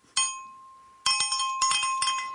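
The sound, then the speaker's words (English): A small bright metallic bell rings once, then, after a short pause, rings in a quick run of many sharp strikes, each ring hanging briefly before the next. “Ask not for whom the bell tolls. It tolls for Trump.”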